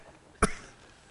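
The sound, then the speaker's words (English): A single short cough interrupts a sermon: one sharp, brief burst that stands alone above faint, steady background noise. “I thought I was going to get through the whole sermon, Jensen, without one cough.”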